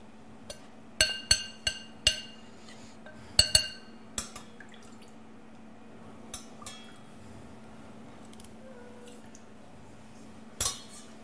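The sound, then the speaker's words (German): A spoon clinks against a small bowl while a sugar-and-liquid mass is stirred. A quick cluster of sharp clinks comes in the first few seconds, then only sparse, faint taps over a quiet steady hum. “Und wenn die Flüssigkeit mit dem Zucker hier schön eine Masse geworden ist, nehme ich einfach etwas ab und mische es dann hier drin in der kleinen Schüssel.”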